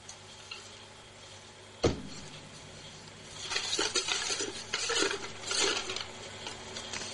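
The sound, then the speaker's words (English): Entries stirred around in a box for a prize draw make a faint, uneven rustling and rattling shuffle that lasts several seconds, preceded by a single sharp knock. “so I'll get the box and give it all a big stir.”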